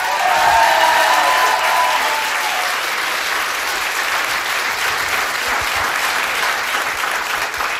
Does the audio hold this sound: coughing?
no

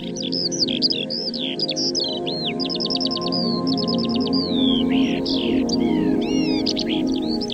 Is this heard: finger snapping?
no

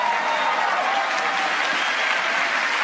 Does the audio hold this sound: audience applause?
yes

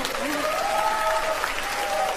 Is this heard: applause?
yes

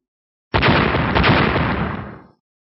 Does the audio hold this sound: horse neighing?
no

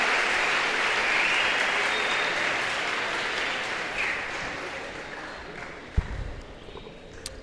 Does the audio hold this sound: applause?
yes

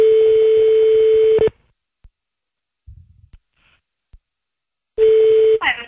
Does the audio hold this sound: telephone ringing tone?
yes

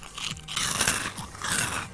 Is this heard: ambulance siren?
no

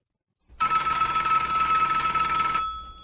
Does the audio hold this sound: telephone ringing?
yes

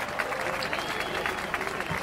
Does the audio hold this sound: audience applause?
yes

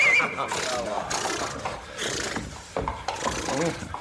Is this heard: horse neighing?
yes

